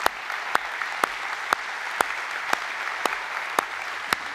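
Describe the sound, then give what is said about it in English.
A church audience at Summit Church applauds in a sustained, dense wash of clapping. Sharp claps cut through it at a steady beat, about twice a second. “In fact, Summit Church, if we could, let's put our hands together one more time and thank God for them.”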